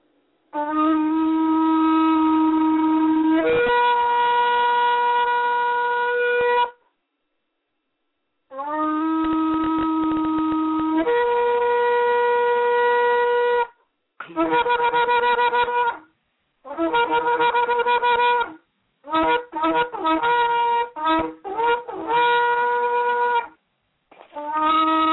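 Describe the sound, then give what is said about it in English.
Shofar blasts: loud, sustained horn tones with rich overtones that leap in pitch partway through the first two long calls, followed by a series of shorter bursts separated by brief pauses, heard alone. “I'm going to sound the shofar, and I'd like to share with you some of the sounds.”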